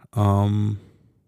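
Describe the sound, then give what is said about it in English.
A person yawns with one drawn-out, voiced yawn lasting about half a second, ending in a soft breathy trail. “Sorry for the yawn.”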